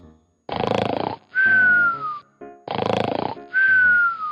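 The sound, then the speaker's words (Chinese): A person snoring while asleep, two full breath cycles: each a loud, harsh rasping inhale followed by a high, whistling exhale that slides downward in pitch. “比如说睡觉的时候打呼噜的声音。这个单词我们用 snore，”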